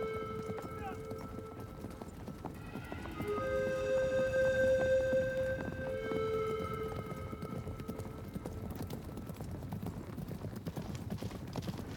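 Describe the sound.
Hoofbeats of a posse's horses riding along a gulch in a Western: a continuous, rhythmic clip-clop of many hooves that swells in the middle and then settles to a steady, even pace.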